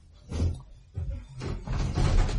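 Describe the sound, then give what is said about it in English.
A locked door being tried: a few dull, low thuds and rattles in quick succession, muffled and heavy, with the later jolts running together into a longer shaking rattle. “It's locked. Perhaps Arthur has a key.”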